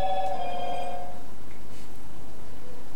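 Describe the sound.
A single telephone ring: a bright, tonal ringing burst that lasts about a second, then fades into quiet background noise with no further rings.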